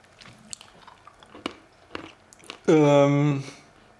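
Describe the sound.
Crunchy chewing of curry-spiced nuts, a few sharp, separate crunches spread over the first seconds, followed by a brief loud voiced hum.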